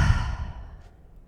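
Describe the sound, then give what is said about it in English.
A long, deep sigh-like exhale starts strong and breathy, then gradually fades away. “One more deep breath in and a huge exhale.”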